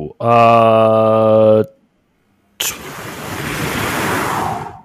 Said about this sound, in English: following that gust of wind. I had to put on an extra layer.